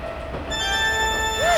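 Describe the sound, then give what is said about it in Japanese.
A train runs on its rails, wrong-direction passenger service: a continuous rumble carries a steady high tonal whine, and a short metallic wheel squeal sweeps up and down in pitch near the end. “これって間違いなく 違う電車。”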